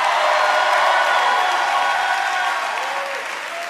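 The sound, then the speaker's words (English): Loud, dense applause from an audience at a West Virginia revival meeting, a sustained wash of clapping that holds steady and eases slightly toward the end. “And now give Jesus the biggest hand clap you've ever given anybody.”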